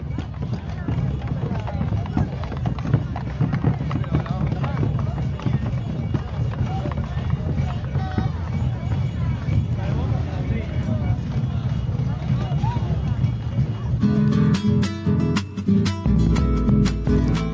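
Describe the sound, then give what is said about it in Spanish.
Bombo drums play at a street march in Santiago del Estero. A dense, steady rhythm of pounding beats runs over a busy crowd din, and the pattern turns sparser and more clipped near the end. “Así que los dejo con el sonido de los bombos y enseguida volvemos.”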